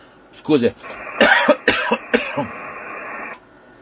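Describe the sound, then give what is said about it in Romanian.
Coughing after choking: a few harsh, noisy bursts in quick succession, fairly loud, over a low background hum. “m-am înnecat și a trebuit să tușesc”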